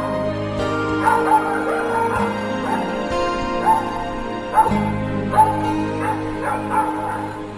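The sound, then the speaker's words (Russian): A puppy barks excitedly, with many short yips and barks coming in uneven bursts over a steady background. “чтобы ударить щенка, заливавшегося лаем”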